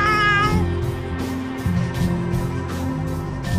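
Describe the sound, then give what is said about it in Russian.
A neighbour's cat meowing in drawn-out, harmonic cries that continue through the whole clip, with no talk alongside. “Ну так, это соседский кот.”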